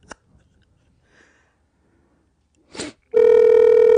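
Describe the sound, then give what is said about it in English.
A phone call's steady ringing tone starts after a few faint clicks and a short rustle, then holds loud and unbroken to the end. “Is it ringing? Yeah.”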